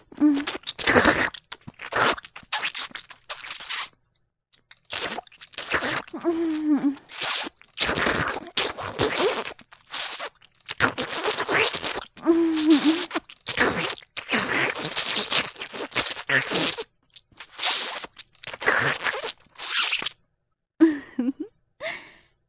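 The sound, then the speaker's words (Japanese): Wet tongue-kissing sounds in an ASMR roleplay arrive as many close, slurpy bursts. Soft breathy sighs run between them, separated by short silent gaps. “もっと舌を出して、気を入れて絡ませなさい。”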